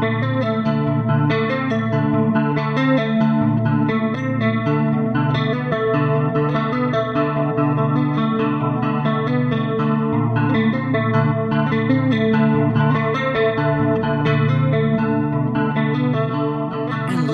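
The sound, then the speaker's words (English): Sustained chords played through a Chord Chorus effect patch on a 506-2 unit give a thick, shimmering, gently wavering tone with slight grit. The sound stays loud and continuous throughout, with no talking. “next up coming at you is the Chord Chorus patch, and let's see what it sounds like.”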